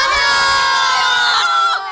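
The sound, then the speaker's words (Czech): Schoolchildren at a Černošice school cheer in excitement for Christmas with one loud, high-pitched collective shout. The shout is sustained evenly, then breaks off and fades just before the end. “Tak takhle se těší žáci černošinské školy na blížící se vánoční svátky.”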